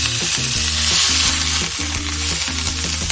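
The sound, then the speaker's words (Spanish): Onion frying in butter, a loud, continuous hissing sizzle with crackling throughout. “A pegar un saborcito. Se dore un poquito la cebolla con la mantequilla.”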